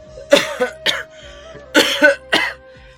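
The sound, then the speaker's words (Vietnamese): An old man hunched on a wooden plank bed coughs hoarsely: several raspy bursts in two clusters, loud and rough, over a faint steady tone. “Lão vừa ho khàn khàn, vừa cào nhàu trong miệng.”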